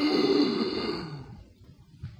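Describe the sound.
A voice imitating a shocked gasp during a sermon: one airy, breathy intake that starts strong and fades over about a second, heard alone.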